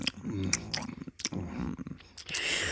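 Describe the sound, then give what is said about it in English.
Crackers being chewed: crisp, crunchy bites and mouth noises come in uneven bursts for a few seconds. “Mmm. Crackers. I'm enjoying one right now.”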